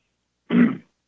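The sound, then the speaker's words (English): A single short throat clear, gruff and fairly loud, lasting about a third of a second with silence around it. “Excuse me, I got something caught in my throat.”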